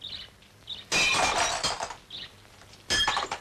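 Window glass shatters in two loud crashing bursts, the first longer with tinkling shards. Faint bird chirps sound in the quiet gaps.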